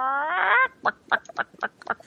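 Chicken sound effect: a drawn-out, nasal harmonic squawk opens, then cuts off into a run of short, evenly spaced clucks.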